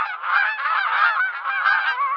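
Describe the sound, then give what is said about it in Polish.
Domestic geese honking loudly, with several overlapping nasal calls that continue without a break for the whole span and no talking. “Gęsi to wbrew powiedzeniu głupia jak gęś, bardzo inteligentne ptaki.”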